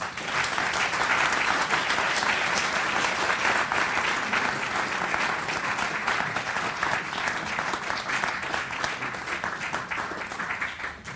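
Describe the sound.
Audience applause welcoming speakers onto the stage: a dense, steady wash of many hands clapping, loud and sustained throughout with no let-up.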